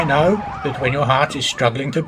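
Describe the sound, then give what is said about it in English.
An ambulance siren wails in repeated rising and falling sweeps, moderately loud, while a voice speaks steadily over it. “Hear that sound? That's the sound of our paramedics and AMBO volunteers in action.”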